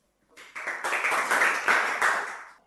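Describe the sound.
A children's radio audience claps for a young poet after his recited verse, a burst of many hands that swells quickly, holds for about two seconds, then fades away.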